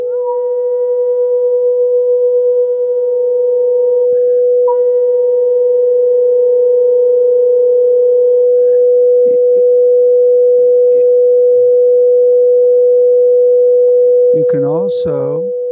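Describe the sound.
A steady pure tone sustains unbroken for about fifteen seconds at a constant mid pitch, loud and even, with a brief warbling flutter entering just before the end.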